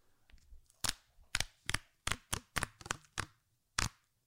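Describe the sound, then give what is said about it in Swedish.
The seal is pulled off a packaged box, giving a series of sharp, loud cracks and snaps at uneven intervals, with a few softer rustles between them. “Så, nu har jag dratt av spärren.”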